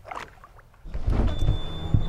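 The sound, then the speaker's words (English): A boat motor in Chicago starts up after a few small mechanical clicks, then settles into a steady, loud, low rumbling run. “I'm glad the motor started.”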